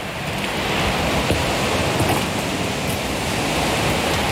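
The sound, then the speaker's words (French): Powerful waves break on a pebble shore, producing a loud, steady roar of surf with a dense hissing texture that continues unbroken throughout, with no voices. “son puissant des vagues, le roulement des galets,”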